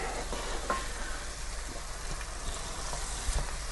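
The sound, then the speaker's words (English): Garlic being stirred and mixed through a dish in a hot pan, giving a soft continuous sizzle broken by scattered light scrapes and taps of the utensil, with no voices. “So I'll just mix that garlic through a little bit.”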